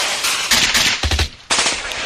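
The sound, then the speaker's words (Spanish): A gunfire sound effect recalls a real shooting at a theatre in Almería in 1922. It plays as a few loud, rapid bursts of shots separated by short gaps. “Hablamos de disparos porque allí ocurrió un hecho terrible.”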